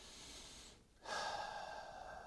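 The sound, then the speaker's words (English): A soft, slow deep breath: quiet airy breathing, a brief hush, then a long, steady breath drawn out evenly to the end. “take a deep breath”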